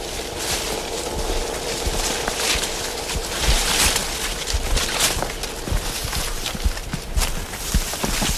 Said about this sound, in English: So that's a pretty characteristic noise, is walking through the slough.